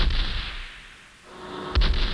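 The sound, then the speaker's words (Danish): Hidden cannons on a warship disguised as a merchant ship open fire. Two heavy booms sound, with a rumbling decay between them, and the second blast is sharp and abrupt. “Skjulte kanoner åbner ild.”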